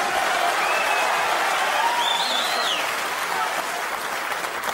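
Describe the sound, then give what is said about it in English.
Dense, steady applause from a snooker crowd during a fast maximum 147 break, a continuous wash of clapping that holds at an even loudness throughout. “The crowd are going absolutely wild.”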